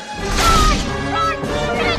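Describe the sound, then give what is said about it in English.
A loud, heavy crash as a giant shark smashes through a window, with a broad burst of impact noise in the first half that fades into a rumbling, churning wash. “The giant shark crashes through the window, snapping its sharp teeth at them.”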